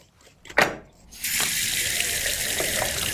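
Tap water runs while a fish is rinsed. A single sharp knock sounds first, then the faucet gushes in a steady, bright splashing stream through to the end.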